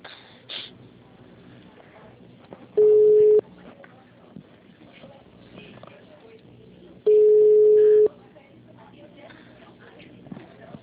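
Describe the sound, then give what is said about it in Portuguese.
A telephone line tone sounds while a call is placed: two steady, mid-pitched beeps, the second longer than the first, separated by a quiet stretch of low background noise. “Vou ligar lá no Paraná Velho. Só um momento, por favor.”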